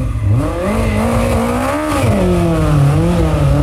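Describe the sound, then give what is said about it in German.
Race cars rev at a hill climb race on a three-kilometre country road closed off as a racetrack, a loud, continuous engine drone whose pitch repeatedly rises and falls with the throttle. “Das Eichenbühler Bergrennen hat ja wieder stattgefunden. Da ist eine 3 Kilometer lange Landstraße zur Rennstrecke umfunktioniert worden.”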